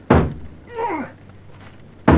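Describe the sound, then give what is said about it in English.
A shoulder rams against a locked door, giving two heavy, dull thuds, one at the start and one at the end, with a quieter stretch between them. “I'll break the door down. I'll run at it with my shoulder.”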